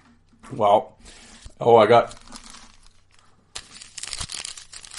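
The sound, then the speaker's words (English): Crinkling and tearing of a 1991-92 Upper Deck hockey card pack wrapper: a sustained, scratchy rustle near the end, after a voice is heard in the first part. “Yes, more hockey cards. This is the gimmick now. It's like I open hockey cards at the start of every episode.”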